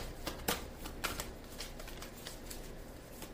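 Oracle cards being shuffled, heard as faint, crisp riffling with several sharp slaps spaced irregularly over a soft papery rustle, with no voices.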